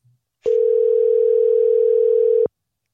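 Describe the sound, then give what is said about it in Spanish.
Steady telephone dial tone heard while a call is being placed. It is a single unbroken pitch that lasts about two seconds, clear and loud, and it stops abruptly with no voices. “Ahora sí, le estoy llamando de otro número.”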